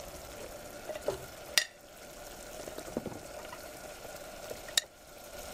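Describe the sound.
Hard vegetables being stir-fried in a pan: a faint, steady sizzle runs throughout, broken by a couple of sharp metallic clinks.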